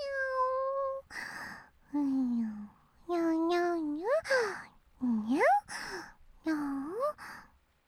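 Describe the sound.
Cat meowing in a series of drawn-out tonal calls, several bending upward in pitch, separated by short pauses and a few breathy bursts.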